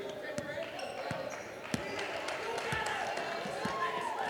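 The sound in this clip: A basketball being dribbled on court during a college game gives several sharp, evenly spaced bounces beneath continuous play-by-play commentary.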